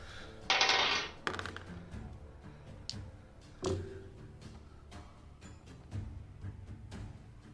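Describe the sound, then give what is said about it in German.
During a tabletop role-playing game, dice are pulled from a bag and tossed onto the floor. A brief rustle is followed by a few faint, scattered clicks and clatters. “ihr seht, wie ich in meine, meine Tasche greife, äh, Würfel raushole und so in die Luft werfe.”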